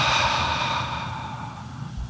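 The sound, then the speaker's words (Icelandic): A deep, drawn-out exhale during a guided breathing exercise. A steady, breathy rush of air carries on alone through the whole clip and eases off slightly toward the end. “og svo öndum við frá”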